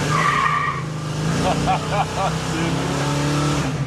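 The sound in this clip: A 540-horsepower, 8-litre V8 car engine runs loudly and steadily throughout, a constant low drone. Midway, a few short, squealing chirps rise over it.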